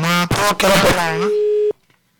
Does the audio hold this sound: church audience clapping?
no